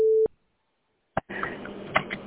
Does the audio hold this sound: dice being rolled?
no